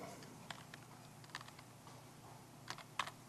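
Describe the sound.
Faint computer keyboard typing: light, irregular keystrokes in small scattered bursts, with one slightly sharper tap near the end, over a low, quiet background.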